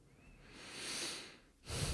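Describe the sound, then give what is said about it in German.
A slow, deep breath swells softly and fades, then a second deep breath begins right after, airy and quiet with no voice. “Schließ die Augen und nimm ein paar tiefe Atemzüge.”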